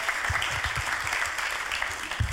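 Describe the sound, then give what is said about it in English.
A church audience claps to welcome a speaker up front, brief, steady applause of many hands. “So why don't you put your hands together and welcome him up here.”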